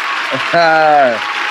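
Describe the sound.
Audience applause welcomes a guest onto a show, steady clapping throughout with a voice cheering loudly through the middle.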